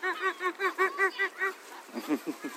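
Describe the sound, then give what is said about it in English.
Geese, goslings among them, honk in a park: a regular run of about nine clear, evenly spaced honks, then quicker, rougher calls that overlap toward the end. “Look, you see all the baby geese.”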